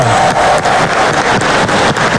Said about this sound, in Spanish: Aplauso, Torretón de la Alegría.